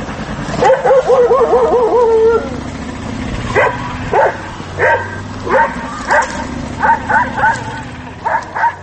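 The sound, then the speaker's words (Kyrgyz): Stray dogs bark in a street in Batken, Kyrgyzstan: a whining, yelping cry comes first, then many sharp barks in an uneven rhythm, loud and close together. “Баткен шаарында ары бери өткөндөргө сүр көрсөтүп, үрүп жүргөн жол бүнөттөрдү ар бир эле көчө сайын жолуктурууга болот”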